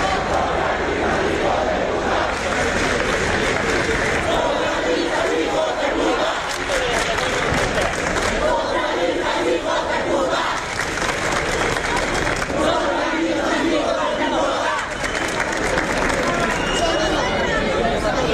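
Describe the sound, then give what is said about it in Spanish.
Crowd chanting at a street protest in Spain where police kept rival groups apart, a dense, loud mass of shouting voices that carries on without pause, with steady crowd babble underneath throughout. “un video de La Sexta donde se escuchan los cánticos”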